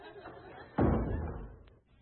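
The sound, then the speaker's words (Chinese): A door being pulled shut lands as a single dull thud partway through, followed by a low rumble that fades over about a second. A faint, steady background hum sits beneath it. “关上门”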